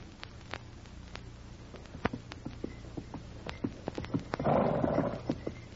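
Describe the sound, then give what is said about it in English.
A horse's hooves clip-clop along a trail toward Dawson in many faint, irregular hollow clops, with a brief rustling burst partway through before the steps carry on. “Sergeant Preston of the Northwest Mounted Police was riding the trail toward Dawson on horseback”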